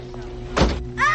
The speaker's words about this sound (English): The paramedics close the door of the ambulance.